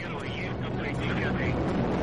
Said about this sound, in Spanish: El cohete Proton despega.